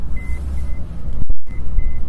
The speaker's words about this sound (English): Is that not the beeping that it makes? No, either a door is not closed or a seatbelt was not on.